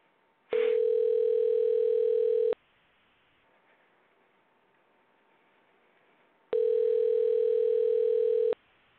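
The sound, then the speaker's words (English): A telephone line tone while placing a call: two steady, loud electronic tones of about two seconds each, separated by roughly four seconds of near silence, with no voices. “I just got again the green light to go ahead and give a call to Rory Gulak. Let's go ahead and give it a try.”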